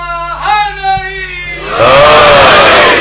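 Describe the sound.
A crowd at a religious sermon shouts a slogan: first a single drawn-out voice calls out, then many voices burst in together, loud and sustained to the end.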